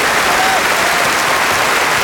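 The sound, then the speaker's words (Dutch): An audience applauds in a dense, steady wash of loud clapping that carries on throughout, with a brief voice calling out over it. “Bravo, bravo! Give us another enormous applause!”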